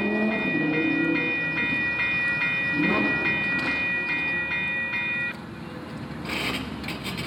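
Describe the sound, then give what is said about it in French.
A train locomotive with only a single wagon rolls by in a steady, rumbling clatter, topped by a thin, sustained high tone that stops after about five seconds, leaving a slightly quieter rumble. “C'était que la locomotive, mais une fois, on ne sera plus chanceux, c'est ça. Il y avait qu'un seul wagon, le wagon locomotive.”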